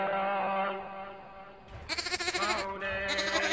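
Sheep bleating, with loud, wavering calls that follow one another with almost no pause and hold steady, fairly high pitch.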